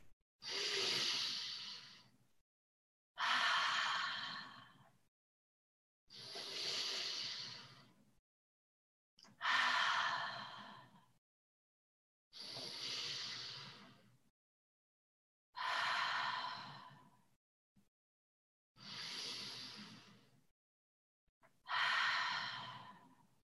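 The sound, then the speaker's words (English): Slow, deep breaths in and out during a guided breathing exercise: eight long, even airy breaths alternate with short silent pauses in a steady, calm rhythm, with no talking. “breathe in as I touch and go up my thumb or finger, pause, and then breathe out. And it's a way to connect to your body and just to take 5 simple breaths.”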